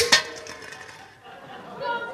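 A big bowl of water bumped in a kitchen gives a sharp, bright clink that rings and fades over about a second, followed by softer, lower sounds.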